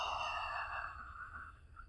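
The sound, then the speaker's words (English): Slow exhale of breath during a guided relaxation exercise: a soft, airy rush of breath that gradually thins and fades over about two seconds, quiet and heard alone. “as we inhale, let's inhale again. And slowly exhale.”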